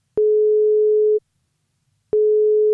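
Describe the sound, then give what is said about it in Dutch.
Telephone ringback tone as a call is placed. A steady mid-pitched beep lasts about a second, then a silent gap, then the same tone starts again. Loud and clean, with no voices. “Ja, nou, gaan bellen.”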